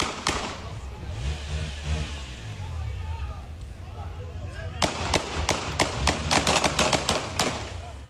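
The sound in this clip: Gunfire as police shoot at a fleeing car that ignored an order to stop: many sharp, loud bangs in a rapid burst through the second half, over a continuous rumble of engine and road noise.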